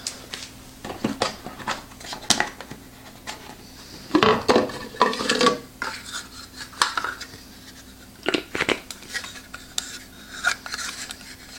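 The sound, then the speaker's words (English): Metallic clanks and scrapes as a lid is set on a bacon cooking rack and turned to lock it down, a series of sharp clatters with a denser burst of rattling in the middle and a few more clinks after. “Place lid on rack and turn to slot the lid down onto rack.”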